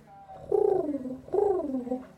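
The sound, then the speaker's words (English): Pigeon cooing in spring: two drawn-out, throaty coos, each sliding downward in pitch, moderately loud and with no talk over them. “Now we're going to talk to a pigeon. So, pigeon, how do you feel about spring?”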